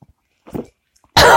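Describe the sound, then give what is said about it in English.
A person coughs after choking on a London fog tea drink. A faint throaty sputter comes first, then one sudden, loud, harsh cough cuts in at the end. “I like swigged the last of my London fog there in preparation for saying goodbye. And choked on it.”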